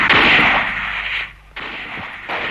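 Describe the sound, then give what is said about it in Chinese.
Gunshots sound outside as a few loud, sharp blasts, each followed by a long, noisy decay that fades before the next shot. “一听外面的枪声，钟连长就知道情况不好。”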